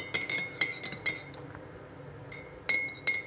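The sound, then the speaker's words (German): A spoon stirs honey into ginger tea in a glass, making a series of bright, ringing clinks against the glass. A quick cluster of clinks is followed by a quieter pause, then a few more clinks near the end. “So, wir haben hier den feinsten Honig. Der wird jetzt gut komplementär zum Tee passen. So, jetzt muss ich ein bisschen umrühren.”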